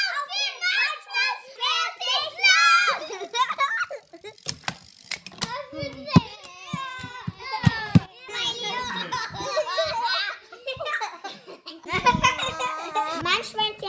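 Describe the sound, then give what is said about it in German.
Children playing a lively board game with chips, their excited chatter mixed with frequent giggles and bursts of laughter throughout, loud and overlapping. “Laut und lustig, das ist hier unüberhörbar, geht es zu bei der Saubande von Ravensburger.”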